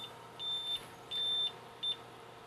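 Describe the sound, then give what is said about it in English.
RV tire pressure monitoring system beeping as it starts sensing the coach and towed car tires: three high electronic beeps, the first two long and the last short, fairly faint over a low background hum. “Okay, we've got a red light. It's going through now and sensing all the different tire pressure. And it's going through the car and its tires and sensing that pressure.”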